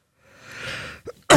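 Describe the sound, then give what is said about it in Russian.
A man coughs: a drawn-out rasping breath builds and fades, followed by a short burst and then a louder, abrupt cough that is cut off at the end. “Еще раз простите, не вовремя я закашлял.”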